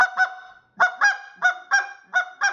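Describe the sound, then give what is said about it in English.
Double clucks blown on a goose call, the fingers lifted and more air pushed into the second note: eight loud, reedy honking notes in four quick pairs, each pair a short note followed by a longer one, with no talking. “I'm just moving my fingers up. I'm putting more air on that second note. And that's giving me this double cluck.”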